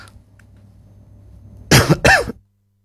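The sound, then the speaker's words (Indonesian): Two loud, harsh coughs come in quick succession after a stretch of low, quiet hum, the second cough rougher and ending abruptly. “mohon maaf ada iklan batuk dulu ya”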